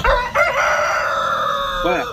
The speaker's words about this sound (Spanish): Un gallo, sí, señor.